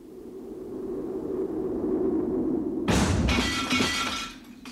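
A window pane shatters in a house on a sudden gust of draught, with a low, wind-like rumble building before it. An abrupt loud crash strikes partway through, followed by scattered tinkling glass fragments that fade out.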